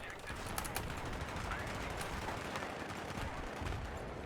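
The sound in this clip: Gunfire in a first-person shooter video game: many rapid, sharp shots in dense bursts over a constant noisy rumble, staying loud throughout.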